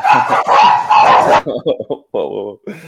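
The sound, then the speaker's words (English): Dogs bark in a dense, loud burst of overlapping barks, then a few shorter, separate barks follow after a brief gap. “We had some dogs in agreement there.”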